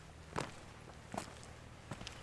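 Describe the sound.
Footsteps of two people walking up a steep path, three spaced, soft steps, faint and unhurried, with no talk over them.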